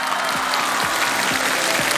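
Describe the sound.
Audience applause at a live acrobatics stunt show, a dense, steady wash of many hands clapping that holds at an even level for about two seconds.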